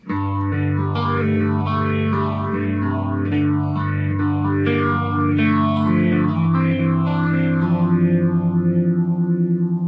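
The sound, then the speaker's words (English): Phaser effect on sustained, slightly distorted held notes, giving a smooth, regular swirl that rises and falls many times through the tone; loud and even throughout, with no voices. “now we're going to hear a phaser.”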